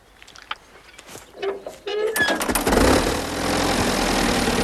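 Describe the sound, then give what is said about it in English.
An old tractor engine is started with a hand-turned starting handle. A few faint cranking clatters come first, then the engine catches with a loud burst and settles into a steady, rumbling idle. “Then walks over to the tractor, bends down and turns the starting handle.”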